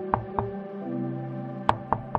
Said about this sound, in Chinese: 抬手敲了敲门